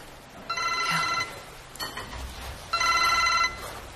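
Telephone ringing in two bursts of bright, trilling bell tones separated by a pause of about a second and a half, with low murmuring in between.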